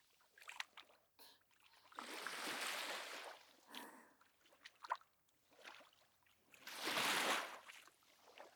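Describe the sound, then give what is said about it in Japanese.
Footsteps splash through shallow sea water with ripples: faint, irregular wet slaps and trickles, broken by two longer hissing washes of water, all quiet and without voices. “ジャパジャパジャパジャパ、海で歩く音はさざ波でかき消されちゃうけど、”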